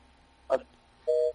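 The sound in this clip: A telephone line tone after a dropped call: a short sharp click, then one steady electronic beep of about a quarter second, clear and fairly loud against near silence.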